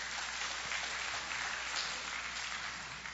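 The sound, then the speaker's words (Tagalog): Applause from a church audience clapping for the Lord during a sermon, a faint, dense and even patter of many hands that holds steady throughout and eases slightly at the end. “Amen ba? Pwede ba palakpakan natin ng Panginoon?”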